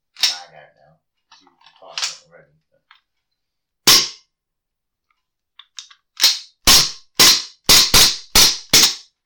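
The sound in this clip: Sharp cracks from a gas blowback airsoft pistol with a clacking slide: one loud shot, a pause, then a quick string of several more in close succession, each a crisp snap.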